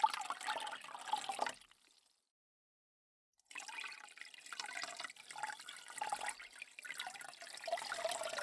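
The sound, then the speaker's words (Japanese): Water gently rinsing over someone, a soft, faint flowing and trickling that stops briefly partway through and then resumes, continuing steadily to the end. “それではこのまま優しく流していきますね。”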